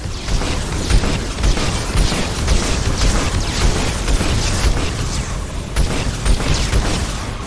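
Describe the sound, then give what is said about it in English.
Rockets firing rapidly in the video game Mass Effect: a loud, unbroken barrage of booming bursts and sharp pops overlapping one another, with no talk over it. “Really can shoot a lot of rockets really fast.”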